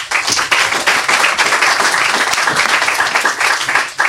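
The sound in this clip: Audience applause for the next young author at a story reading event: dense, steady clapping that stays loud and even for the whole stretch, with no clear voices over it.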